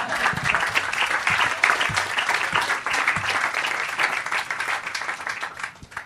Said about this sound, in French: C'est bon, vous pouvez applaudir.